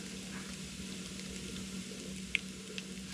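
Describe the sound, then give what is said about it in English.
Cajun shrimp frying in a pan, a faint, even sizzle that holds steady under a low hum, with one sharp tick partway through. “So I'm gonna go ahead and put in the shrimp.”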